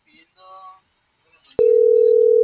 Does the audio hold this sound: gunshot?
no